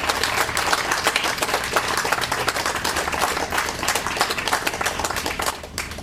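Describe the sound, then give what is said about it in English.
Audience applause for the performers at a live poetry and performance event, a loud, sustained crowd of clapping with crisp individual claps. It runs steadily throughout and eases slightly near the end. “How about another hand for all the performers today?”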